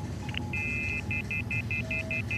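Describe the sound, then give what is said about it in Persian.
A telephone line goes dead with disconnect beeps: one longer high tone, then a quick, evenly spaced run of short electronic beeps at the same pitch, over a faint background hum. “هلو؟ هلو؟ قربان، ارتباط قطع شد.”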